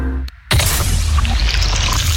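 A sparkling, refreshing Rivella soft drink being poured: after a brief moment of silence, a loud, bright fizzing hiss starts suddenly and continues steadily to the end.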